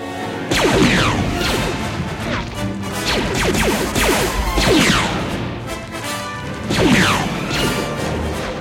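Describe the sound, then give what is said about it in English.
Blaster fire as Boba Fett shoots at Luke and barely misses: several zapping shots with sweeping falling pitch, loud and repeated amid a crashing din. “Boba Fett fires at Luke, barely missing.”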